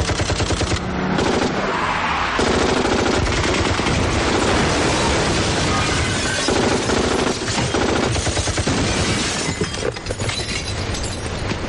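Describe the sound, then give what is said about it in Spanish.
Gunfire from several armed men shooting at a car from the roadside among trees, in a dense, loud barrage of rapid automatic bursts that continues without pause throughout. “A los lados de la carretera, entre los árboles, aparecen varios hombres armados que disparan al coche.”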